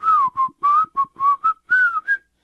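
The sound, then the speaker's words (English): Whistled speech in the Pirahã language, carrying the tones and syllables of a phrase saying a jaguar is there: a string of short, clear whistled syllables at a fairly steady mid-high pitch with slight glides, with no other voices. “I could whistle it,”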